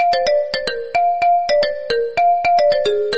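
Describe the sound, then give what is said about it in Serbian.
Bright electronic mobile phone ringtone signalling an incoming call: a quick, loud melodic run of short synthesized notes repeating in a steady pattern, with no talking. “imam neki poziv, sad moram se javiti na ovo, izvini, molim te.”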